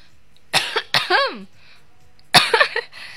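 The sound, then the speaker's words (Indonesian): A few harsh, throaty coughs come in two clusters separated by a short pause, the first cluster ending in a rough, voiced rasp. “Batuk.”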